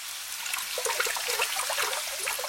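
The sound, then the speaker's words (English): Water trickles and bubbles up like a small fountain from the ground through a simple clay oven, a steady, quiet gurgle with no voices. “The oven in Nuh's own house, a simple clay oven, began to overflow with water, bubbling up from the ground like a fountain.”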